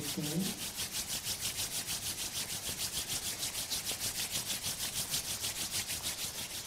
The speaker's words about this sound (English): Fold your palms. Spojte si dlane. Rub your palms.